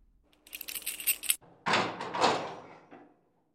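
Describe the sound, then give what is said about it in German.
A key turns in a door lock: metallic jangling and scraping with a sharp click. A louder, longer scraping rush follows and then fades to silence. “Da hört er den Schlüssel im Schloss umdrehen.”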